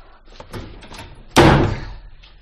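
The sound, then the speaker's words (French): A closet door is shut with one solid slam, preceded by a few soft clattering movements, the impact trailing off briefly. “Refermons le réduit.”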